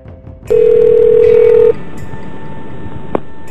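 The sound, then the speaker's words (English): A payphone call uses tones made with a red box: a loud, steady beep lasting just over a second, then a quieter continuous tone and a single sharp click. “I called from a payphone using a red box, so the call was extra illegal. And I pretended to be the AT&T operator. So here it is. Here's the original call to Mildred Monday”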